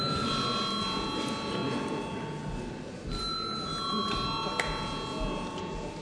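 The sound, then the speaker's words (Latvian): A parliamentary voting bell rings in a long, bright, sustained electric tone over a rumbling background, breaks off briefly around the midpoint, then resumes and carries on to the end. “Lūdzu zvanu.”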